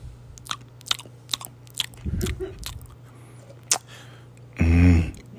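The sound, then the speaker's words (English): Chocolates being chewed: crunchy bites and soft, wet chewing sounds come in scattered short bursts over a low, steady hum, with a louder, thicker burst near the end. “I'm chewing on chocolates.”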